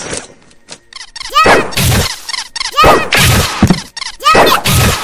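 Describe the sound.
Heavy blade weapon attacks in a video game: a few loud, crashing hits with swooping tonal whooshes and dense game sound between them, at high level throughout.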